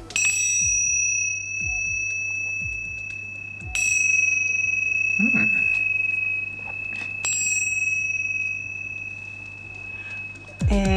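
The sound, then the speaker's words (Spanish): Small Buddhist ritual bells struck four times at fairly even intervals, each strike giving a bright, high, clear ring that sustains and slowly decays, with a few soft low handling knocks between strikes. “Son unas campanitas que suelen usarse dentro de los rituales budistas y de Oriente.”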